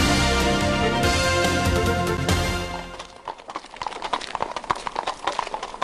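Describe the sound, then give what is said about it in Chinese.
Horse hooves clip-clop crisply on a street paved with small square cobblestones. Many quick, sharp hoofbeats follow a tonal opening sound. “马蹄踏在小方石块铺成的街道上，听起来格外的清脆，尤其是在深夜。”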